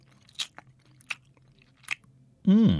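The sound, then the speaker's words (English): Cake mix being tasted and chewed gives three short, soft mouth and crunch sounds spaced across a quiet stretch, followed at the end by a voice starting to speak. “Do you want to taste a cake mix? Oh, go on then.”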